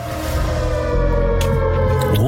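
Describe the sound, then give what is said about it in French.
Siren sound effect setting a disaster mood around Chernobyl, a loud, sustained droning wail rich in harmonics that holds a steady pitch and bends slightly near the end. “On est dans l'ambiance de sirène. Ambiance catastrophe, hein.”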